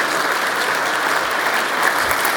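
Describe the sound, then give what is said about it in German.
Applause from an audience of colleagues welcoming a speaker to the stage at a talk: a dense, even patter of many hands clapping steadily throughout without a break. “Begrüßen wir ihn mit einem großen Applaus, meine lieben Kollegen.”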